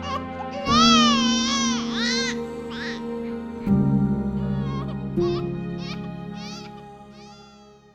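A newborn baby cries just after a caesarean birth, giving a few loud, wailing cries with a high, quavering pitch, each separated by a brief pause.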